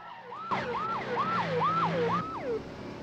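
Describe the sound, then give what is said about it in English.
Ambulance siren wailing as the vehicle speeds up a sharp, winding road: loud, rapid repeated pitch swoops over a low engine drone, holding an even level throughout. “As the ambulance speeds up a sharp and winding road”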